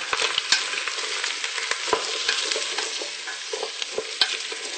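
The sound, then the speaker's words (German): Onions sautéing in a pan until golden, a continuous soft sizzle with many sharp clicks and scrapes of stirring, no talk. “Schön andünsten. Und das, bis die anderen Gemüse noch dazu kommen? Bis die Zwiebeln ungefähr so goldbraun sind oder bis es angedünstet ist einfach.”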